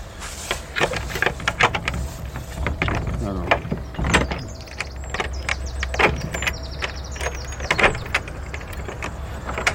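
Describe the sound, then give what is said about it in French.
An old Gascon door lock being worked open at the Arnaudin house, a period building kept as it was in 1921: scattered metallic clicks, rattles and door-mechanism sounds, with people talking throughout. “Une vraie serrure gasconne, il faut ouvrir à l'envers.”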